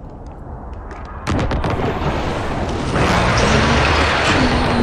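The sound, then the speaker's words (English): Precision airstrike explosions in a video game: abrupt heavy blasts give way to a loud, continuous rumbling roar that grows stronger toward the end. “Enemy precision airstrike. Get down.”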